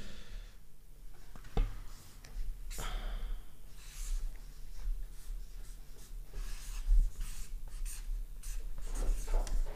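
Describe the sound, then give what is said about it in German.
A pen writes a word on paper in handwriting: faint, scratchy strokes come in an uneven series of short scrapes and taps, with small pauses between them. “Ich habe noch nie ein Wort geschrieben, was so überhaupt gar nicht nach meiner eigentlichen Handschrift gerade aussieht.”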